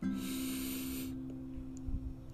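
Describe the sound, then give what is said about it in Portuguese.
A deep breath drawn in during a guided breathing exercise, heard as a faint airy hiss lasting about a second before it trails off, over a soft low steady tone. “três respirações profundas, inspirando e expirando. Mais uma vez, inspirando”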